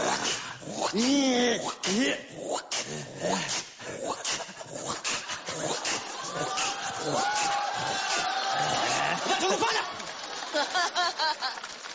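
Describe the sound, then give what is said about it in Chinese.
A person imitates the family dog with whimpering, whining and yelping sounds that rise and fall in pitch, mixed with laughter and other voices talking. “干嘛呢？ 学我们家狗啊？ 我们家狗就这样， 狗就这样。”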